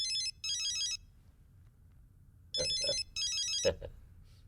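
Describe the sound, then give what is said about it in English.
An electronic telephone ringtone in a film scene trills in two pairs of warbling bursts with a quiet pause between the pairs. It rings clearly over faint background noise. “I believe you are listening to that phone.”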